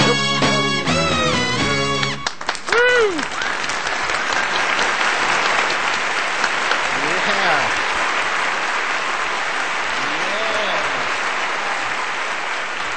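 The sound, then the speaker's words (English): Audience applause for Bruce Limprist and the All-Boy Orchestra, breaking out as the final notes of the music end and continuing as loud, sustained clapping with some cheering. “Give it up, if you would, for Bruce Limprist and the All-Boy Orchestra.”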